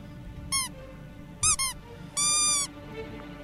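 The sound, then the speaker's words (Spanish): Rubber duck toy squeaking in a few short, high, bright squeaks followed by one longer drawn-out squeak, each standing clearly above a faint background hum with no voices. “No, pero si estoy muy tranquilo con mi patito de hule”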